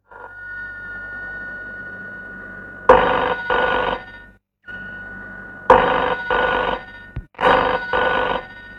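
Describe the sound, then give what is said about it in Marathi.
A telephone bell rings in three pairs of loud, bright double rings separated by short pauses, over a faint steady background hum. “निश्चित गाशाचाच phone असणार, तो तिथे वाट पाहत असणार.”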